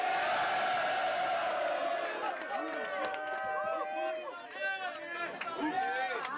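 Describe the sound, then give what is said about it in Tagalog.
A live crowd at a rap battle cheers and roars in a broad wash of noise that thins out as a voice talks over it. “Welcome back to Flip Top. Everyone make some noise.”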